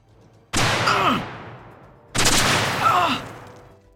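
Gunshot effects in an action-thriller audio drama: two loud, sharp blasts about one and a half seconds apart. Each has a rough, rattling tail that slowly fades.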